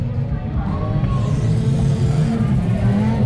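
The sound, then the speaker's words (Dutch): A car drives through slippery wet clay on a muddy bend. Its engine gives a steady, low, rumbling roar throughout. “Terwijl hier Tijmen Veldkamp eventjes lekker door de natte klei gaat.”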